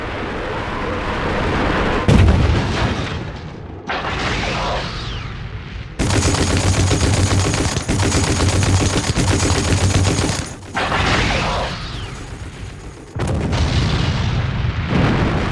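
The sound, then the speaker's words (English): Heavy barrage from World War II Russian rocket launchers, a dense rumbling roar of overlapping blasts and crackling bursts that runs in several long loud stretches separated by brief dips, with no voices. “But his remaining soldiers, overwhelmed by the Russian rocket launchers, surrender one after the other.”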